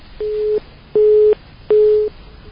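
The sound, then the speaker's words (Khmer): A phone line's disconnect tone sounds after a call drops on a weak internet connection: three evenly spaced, steady mid-pitched beeps, each about half a second long, loud and alone. “ដោយសារតែសេវាអ៊ីនធឺណិតនៅខាងគាត់ប្រហែលជាខ្សោយហើយឥឡូវគាត់ក៏បានដាច់ទៅហើយ”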